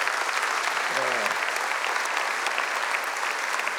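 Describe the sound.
An audience applauds to welcome a speaker at an event, with dense, steady clapping that stays loud through the whole stretch. A brief voice cuts in near the start.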